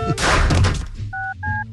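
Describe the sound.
Telephone number being dialed: a loud, booming thud comes first, then two short, steady dual-pitch keypad beeps with a brief gap between them.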